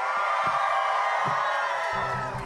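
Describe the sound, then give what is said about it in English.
An audience at a comedy show cheers and whoops, a loud continuous wash of voices that holds steady for a couple of seconds. “make some noise if you believe in women's rights”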